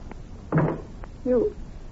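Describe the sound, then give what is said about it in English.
A car door shutting with a solid thud on a cold night, while the car's heater is kept running; a second, shorter muffled thump or voiced sound follows about a second later. “You better close the door and keep the heater going.”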